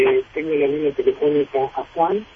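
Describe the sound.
A caller's radio playing loudly through a phone line: thin, narrow-band voice-like sound with held, wavering tones comes in a few separate bursts with short gaps between them.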